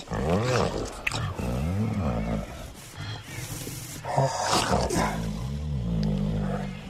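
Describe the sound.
A human voice imitates a male tiger's mating roar before copulation: a loud, continuous, growling moan with strong harmonics and a wavering pitch.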